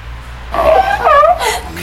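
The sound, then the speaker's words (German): An artificial seal lets out a few short, wavering howls with tonal, gliding cries that rise and dip. They come in quick bursts at moderate loudness, with no talk. “Unsere künstliche Robbe kann nicht nur schwimmen, sondern auch heulen.”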